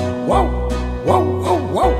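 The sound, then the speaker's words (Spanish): Dogs bark in four loud yapping barks, one early and then three in quick succession after a short gap. “Mira cómo ladran los perritos.”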